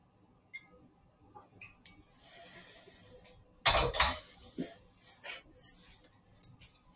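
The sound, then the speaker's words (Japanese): Kitchenware being handled while a coffee bottle is warmed: faint scattered clinks and knocks, with one louder clattering burst midway and a few more sharp clinks after it. “今ですね、コーヒー、えー、専用ボトルのカフアのボトルの方も温めていきますね”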